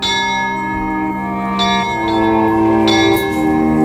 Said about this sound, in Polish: W dole, na wawelskim dziedzińcu, odezwały się dzwonki.